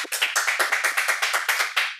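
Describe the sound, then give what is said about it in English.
Audience applause for a pastor comes as a string of crisp, evenly spaced claps with a steady, quick rhythm. They are distinct and fairly loud, with no voices over them. “We just want to give a big round of applause for Pastor Connor”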